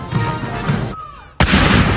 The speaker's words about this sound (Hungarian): A parádé végén a tüzérség a szokásos 41 ágylövéssel köszöntötte a királynőt.